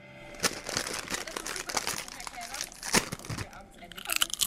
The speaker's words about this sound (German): Jetzt erstmal Packung auf.